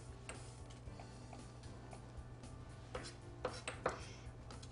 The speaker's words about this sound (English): Next, I'm going to cut some onion up.